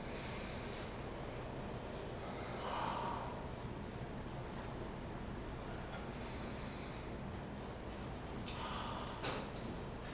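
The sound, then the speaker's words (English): A slow, deep breath taken as a relaxation exercise: a long, soft, airy hiss that stays steady throughout, with gentle swells near the middle and again near the end, and no talking. “When I make the circle, with practice, it triggers my mind to take a deep breath. Slow, deep breath.”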